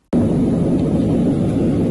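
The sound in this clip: An airplane flying above the clouds gives a constant, loud, broad roar that starts abruptly. The engine noise is heavy in the lows with an even hiss over it and no change throughout.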